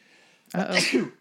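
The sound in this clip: A single sneeze, a sharp breathy burst lasting under a second after a faint lead-in.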